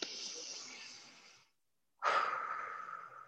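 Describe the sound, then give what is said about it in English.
A deep, slow breath, audible as a long airy rush of air that fades out, a brief silence, then a second strong breath that starts sharply and tails off gradually. “I want to invite you to take a moment to take a big, compassionate breath.”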